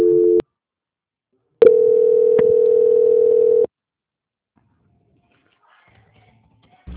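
Telephone tones sound during a call transfer: a short steady tone, a pause, then a longer steady tone lasting about two seconds, followed by near silence.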